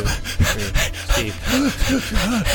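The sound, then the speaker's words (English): A quick series of very fast, shallow breaths taken on a count during a guided grounding exercise: sharp, breathy puffs in an irregular rapid rhythm, fairly loud, with no talk over them. “we're going to take five very fast, very shallow breaths on the count of three.”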